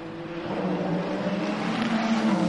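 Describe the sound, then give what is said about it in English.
A Ferrari race car pushing along a racetrack, its engine a loud, continuous droning whine with steady pitch and constant level throughout, no voices over it. “The Ferrari of Alessandro Pecorini pushing along.”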